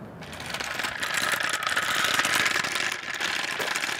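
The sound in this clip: Steady mechanical rattling and clicking comes from a large toy turtle with rollers under its feet being pulled along on a leash, a continuous, fairly faint ratchet-like clatter without voices.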